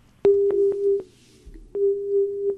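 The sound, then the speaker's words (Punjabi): A phone line tone sounds after a call drops: a steady mid-pitched tone in two long stretches marked by clicks, with a short gap between them and no voices. “ਮਾਫੀ ਚਾਹੁੰਦੇ ਹਾਂ ਜੀ, ਇਹਨਾਂ ਦਾ ਸੰਪਰਕ ਸਾਡੇ ਨਾਲੋਂ ਟੁੱਟ ਗਿਆ।”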